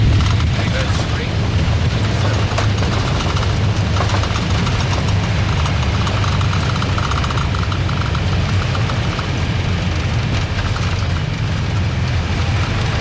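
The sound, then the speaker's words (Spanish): Airliner jet engines keep running after landing, just before shutdown, giving a steady, dense roar that holds at an even loudness throughout. “APU available, paramos el motor 1, el 2 y parking checklist cuando quieras.”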